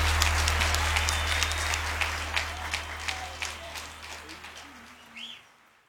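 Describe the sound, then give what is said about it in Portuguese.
Audience applause for a performer: dense, steady clapping over a low hum that gradually thins and fades toward the end. “de palmas para Eduardo Costa.”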